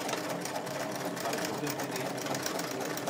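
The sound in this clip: Sewing machine backstitching to lock a seam and reinforce it while sewing a garment leg seam: a quiet, fast, steady mechanical whir running evenly throughout.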